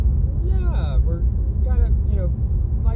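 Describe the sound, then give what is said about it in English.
Steady low rumble of car interior road noise while driving down a freeway, loud and continuous beneath someone talking throughout. “The audio quality might not be that great because we're recording on my phone as we're driving down the freeway”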